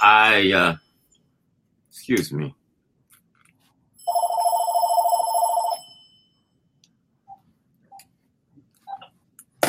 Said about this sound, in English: that's the phone. That we will probably have that problem going on.